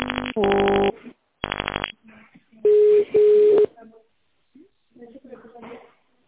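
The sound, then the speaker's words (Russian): Telephone keypad tones dialing an extension at an office line: several short, bright tone bursts in quick succession, then faint voices over the line. “Если вы хотите позвонить главному бухгалтеру, наберите 221.”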